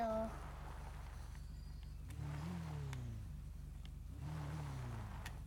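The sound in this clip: Motorcycle engine revving in a video game: a steady, low mechanical drone that twice climbs sharply in pitch as the throttle opens, then settles back down.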